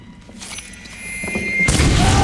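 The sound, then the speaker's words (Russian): A grenade explodes in the film White Sun of the Desert: faint thuds and rustles lead into a sudden deep, muffled boom that swells into a loud, rumbling roar at the end. “Взрыв, падают убитые.”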